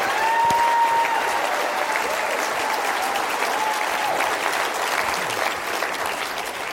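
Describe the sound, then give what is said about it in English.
Live audience applause greeting a speaker at a leadership event in Carlsbad, a steady, dense wash of clapping that stays loud for the whole stretch and eases only slightly near the end. “Give it up for Dr. Daniel Goleman.”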